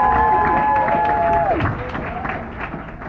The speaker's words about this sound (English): So give them another round of applause.